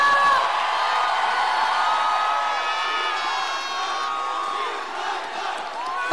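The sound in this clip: A concert crowd in Rio cheers and whoops, a loud sustained roar of many voices with high shouts that holds steady and eases slightly toward the end.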